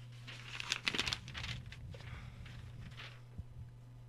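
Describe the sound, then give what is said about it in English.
Paper crinkling and rustling as a winner's name is drawn from a hat, with a busy burst of crumpling early on that settles into softer, intermittent rustles. “You want to pick a winner? Oh, yeah, we got to do that. All right, go ahead, draw from the hat.”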